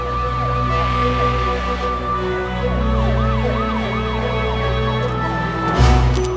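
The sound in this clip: Sirens of police cars and an ambulance outside a hall wail with rising and falling pitch, overlapping one another above a low vehicle rumble.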